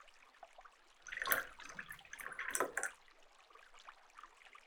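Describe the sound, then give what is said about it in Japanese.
A drink refill being poured into a cup: faint liquid splashing and gurgling that swells for about two seconds, then trails off into quiet trickling. “もう、もっとこっちさ寄って。はい、注ぐよ。”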